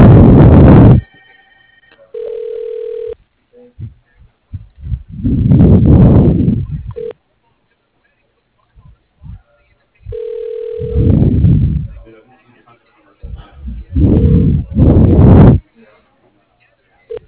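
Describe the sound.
A telephone ringback tone sounds while an automated phone system transfers a call to an extension. A few steady mid-pitched tone bursts alternate with stretches of talk.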